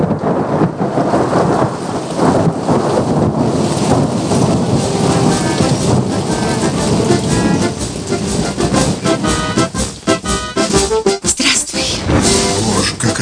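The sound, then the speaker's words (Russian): Rain falls with thunder: heavy, steady rainfall hisses throughout while deep rolling rumbles swell and fade beneath it, loud and continuous, with no voices. “О, и сегодня за нами увязывается дождь, и верно уж не отвяжется.”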